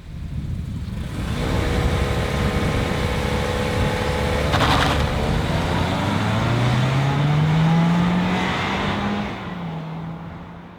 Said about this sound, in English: This is what four cylinders sounds like.